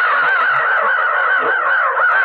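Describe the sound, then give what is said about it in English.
Large black scavenger birds, a whole flock of them, caw at once in a harsh, dense chorus of overlapping rasping calls. The sound is loud and continuous from start to finish, with no break. “I dropped suddenly in the ground as a cloud of giant black scavenger birds”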